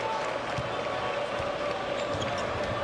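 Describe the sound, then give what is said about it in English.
A basketball is dribbled on the court during a college game, its repeated dull thuds landing at an uneven pace beneath a constant wash of crowd noise. “Young on the dribble, around a Geronimo screen.”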